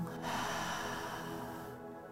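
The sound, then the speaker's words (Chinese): A long, deep exhale through the mouth during a yoga plough-pose stretch comes as a soft, steady rush of breath that tapers toward the end. “双手高举过头，先深深的吸气，把身体拉长，大口吐气，”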